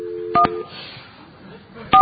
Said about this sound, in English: I'll dial the number. You got to press this.